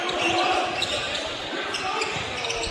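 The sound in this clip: A basketball bounces on the court during a bounce pass in a game, its dull thuds set against steady, dense crowd noise that fills the whole stretch at a fairly even level.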